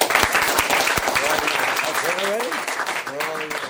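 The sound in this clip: Warm audience applause welcomes a speaker at an Alcoholics Anonymous meeting. Dense, loud clapping runs throughout, with a few voices calling out over it.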